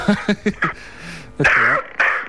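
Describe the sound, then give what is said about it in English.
Coughing from a person with the flu: a rapid run of four short, sharp coughs, then two longer, throatier, loud bursts. “I'm just going to have a cough if you don't mind.”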